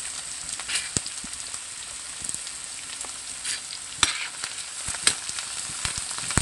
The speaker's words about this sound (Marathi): व्यवस्थित परतून घ्यायचं आहे